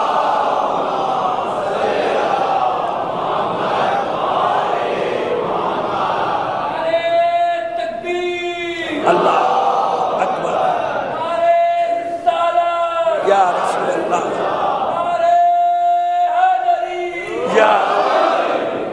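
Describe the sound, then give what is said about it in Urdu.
A crowd recites salawat aloud in unison at a religious gathering: a steady murmur of many voices swells into three loud, sustained chanting surges. “انشاءاللہ ایک صلوات اور بھیجیے محمد”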